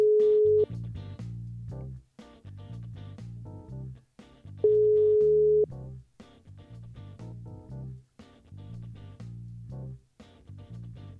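An Italian telephone ringback tone plays while a call is placed, two steady mid-pitched tones with a long gap between them, over continuous quiet music.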